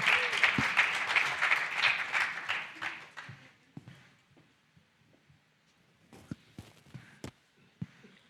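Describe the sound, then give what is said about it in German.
Applause from a church audience during a service. Dense clapping holds strongly for about three seconds, then thins and fades away, followed by a few scattered knocks. “Geben wir ihr mal einen Applaus.”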